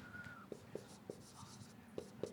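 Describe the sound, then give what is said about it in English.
Marker strokes on a board as someone writes a word during a nutrition lesson: short, scratchy, fairly faint strokes in an uneven rhythm, separated by brief pauses. “So I'm going to write protein over here.”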